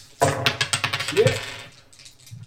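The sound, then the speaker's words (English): Two dice roll during a tabletop role-playing game session, making a quick burst of many sharp rattling clicks that clatter across the surface and then settle and fade. “So just roll them like normal dice. So just. My two dice.”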